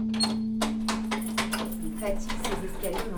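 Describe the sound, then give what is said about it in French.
A key works at a stiff door lock, giving a run of small metallic clicks, scrapes and rattles over a steady low hum. “Elle est dure ta serrure là, non ? Hein ? Elle est dure ta serrure.”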